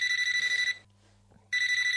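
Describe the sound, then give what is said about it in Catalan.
A telephone rings with an incoming call: two bright, trilling bursts separated by a short pause, the second cut off at the end, over a low steady hum. “vol agafar el telèfon ja? Ja! Em sembla que tenim una trucada.”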